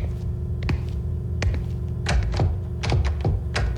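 Someone tries the handle of a locked cellar door, producing several dull thunks and rattling clicks in irregular bursts over a steady low hum.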